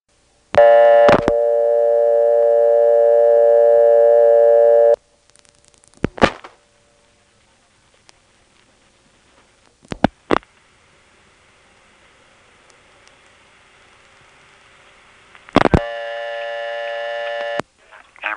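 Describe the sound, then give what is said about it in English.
Telephone dialing of 8 then 1 to reach a faulty trunk line: a steady dial tone cut off by sharp clicks, a few isolated clicks over near-silence, a faint hiss, then another steady tone ending in clicks. “Here's a tape of dialing 8 and then 1.”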